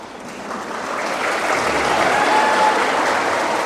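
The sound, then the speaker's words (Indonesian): Audience applause that starts hesitantly with a few scattered claps, then gradually swells into fuller, steady clapping. “Jadi kalau kita dengar itu bunyi tepuk tangan itu, di awal-awal tuh ada yang ragu. Dia tepuk tangan, dia tengok kanan, tepuk gak ya? Makanya dia satu-satu dulu. Satu-satu. Dia tidak serentak.”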